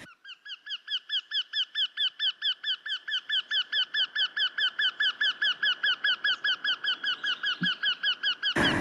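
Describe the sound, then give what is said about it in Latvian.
Eurasian wryneck calling: a long, loud run of many rapid, evenly spaced notes of unchanging pitch, each with a nasal, ringing tone, ending in a brief burst of noise. “Tītiņa balss ir nemainīgas intonācijas tī-tī-tī-tī.”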